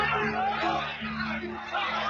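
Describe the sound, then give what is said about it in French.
An angry mob shouts and screams in a dense, continuous uproar of many voices overlapping, with steady loudness and no pauses throughout. “Les hurlements fusent de partout.”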